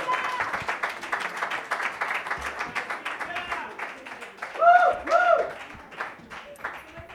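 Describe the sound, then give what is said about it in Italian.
Audience applause at a comedy night: a moderate patter of clapping that swells briefly, then thins out and fades, with some talk over it. “fate un grosso applauso per quello schifo umano di Silvia Conti”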